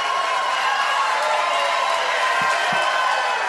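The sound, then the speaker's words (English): Crowd cheering from a live audience at the Catholic Answers National Conference in the ballroom of the Hyatt Regency La Jolla, a loud, steady roar that holds at the same level throughout. “Live on the air, but also live from the ballroom of the Hyatt Regency La Jolla. We are in the midst of Catholic Answers National Conference. Thank you all so much for showing up and cheering us on.”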